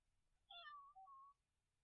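Cat meowing: a single clear meow of about one second that starts high and falls in pitch, with a brief break midway, alone over near silence.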